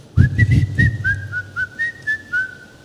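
A person whistling a short tune alone: a quick rising slide into a series of about eight brief, clear, high notes in an uneven rhythm.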